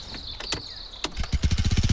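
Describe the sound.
A moped engine, the kind used for riding to a rural high school, starts with a few sharp clicks, then settles into loud, rapid, regular chugging pulses.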